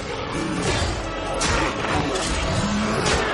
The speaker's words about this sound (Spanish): Orcos y hombres luchan en Ciudad de Valle.